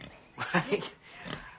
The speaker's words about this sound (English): I brought you this pig.